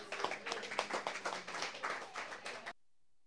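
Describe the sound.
Audience applause welcoming a performer at a live music show, a dense burst of many hands clapping that lasts under three seconds and then cuts off abruptly into silence.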